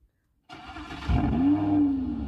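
Simulated Lamborghini engine sound from a phone car app: silence, then a sudden engine start that swells into a louder, sustained rev with a whining tone that climbs and then holds steady.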